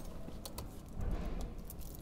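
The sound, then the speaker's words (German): Jangling keys as a city tram track worker searches a bunch for the right key, with a few faint metallic clinks and rattles over a steady low rumble. “Mal gucken, ob hier noch von meinen drei Wunderschlüsseln ist.”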